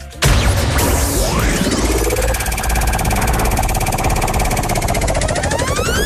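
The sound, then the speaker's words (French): A game show prize wheel spins in a dense, continuous clatter and whir that starts abruptly and stays loud and steady for about six seconds, with fast ticking running through it and no talk. “Allez, top. On va lancer la roue.”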